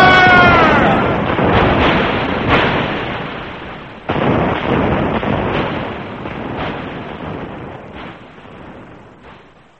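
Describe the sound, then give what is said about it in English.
Cannon fire from guns: several heavy booming blasts, each followed by a long, rolling rumble that gradually fades away. “Henceforth these guns will do our talking, and then our masters may listen to us. Fire!”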